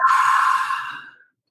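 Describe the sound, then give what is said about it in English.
A single long, deep exhale during a guided deep-breathing exercise, breathy and fairly loud, steadily tapering off into silence. “So take three deep breaths here, please.”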